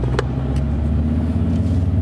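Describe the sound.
A car drives along at an easy, leisurely pace, producing a steady low rumble of engine and road noise that holds at an even loudness throughout, with no voices.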